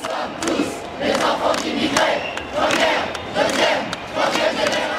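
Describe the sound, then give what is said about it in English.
Loud crowd voices fill a community center amphitheater in the Lyon suburb of Vénissieux, France, where about 500 people attend a pro-Palestinian rally. The shouting rises and falls in steady, rhythmic surges throughout. “There are rallies for the Palestinian cause like this across France. Here in the community center of the Lyon suburb of Vénissieux, green, black, and red Palestinian flags adorn the stage. About 500 people fill the amphitheater,”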